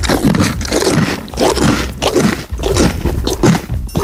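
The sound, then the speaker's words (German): A pony chews bread loudly, a continuous rough crunching and grinding with many uneven chews close together, filling the whole stretch without pause. “Da wird aber laut gekaut.”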